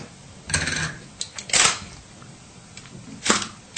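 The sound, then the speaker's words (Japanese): A camera shutter firing with a flashy, showy mechanical sound: a few loud, sharp clacks separated by quieter clicks and brief gaps. “シャッターはねこれが派手でいいですよ。”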